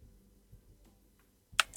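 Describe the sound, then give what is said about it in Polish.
Two sharp clicks as a key is pressed on a computer keyboard while editing a recording, coming close together after near-silence with faint low background noise. “Ja puszczam, uwaga, naciskam teraz I”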